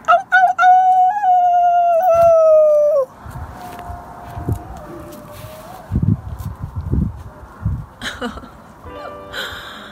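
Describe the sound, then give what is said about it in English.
Human voices imitate howling outdoors from a balcony in Boulder. One loud, wavering howl is sustained for about three seconds, then fainter, thinner howls carry on over a rough background noise. “people in Boulder are going outside and howling.”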